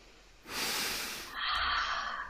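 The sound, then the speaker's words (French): A deep breath is drawn in and then let out, two long airy rushes of even loudness, the inhale and the exhale each lasting close to a second, with no talking. “Inspirez, expirez.”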